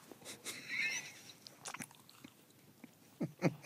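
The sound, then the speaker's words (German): Crunchy bites and chewing of a waffle, faint and sparse, with a few sharp crunches near the start and a couple more near the end, separated by quieter chewing. “wenn du jetzt die Waffel isst, ob mal kurz Ruhe einkehrt”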